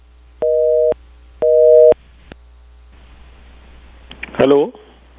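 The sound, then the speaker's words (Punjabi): Telephone busy tone after a call-in caller's line disconnected: two steady, evenly timed bursts of a loud dual-pitched tone with short gaps, followed by low line hiss and then a voice briefly starting to talk. “I think ਤੁਹਾਡੀ line ਜਿਹੜੀ ਹੈ ਉਹ disconnect ਹੋ ਗਈ ਹੈ।”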